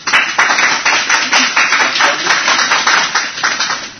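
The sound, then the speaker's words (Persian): An audience at a sales talk claps loudly in a steady run of regular pulsing bursts that continue without a pause. “برام یه دست بزنید”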